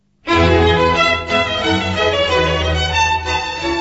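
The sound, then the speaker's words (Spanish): The lively final allegro assai of Bach's violin concerto number 12 in E major bursts in with bright, sustained violin and orchestral strings playing a continuous, animated passage. “El último movimiento del concierto para violín y orquesta número 12, mi mayor de Bach, es mucho más breve, no llega a 3 minutos, es un allegro assai que le pone a la obra un final vivaz, chispeante, muy animado.”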